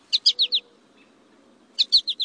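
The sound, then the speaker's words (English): An American goldfinch gives its flight call as two quick bursts of four to five bright, high chirps. A short silence separates the bursts. “This American goldfinch makes a flight call to let the flock know he's still with the group.”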